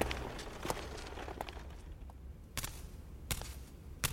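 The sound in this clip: Faint footsteps of a man climbing the steps to his apartment: several separate, irregularly spaced steps over a low, steady background hush, with no talking.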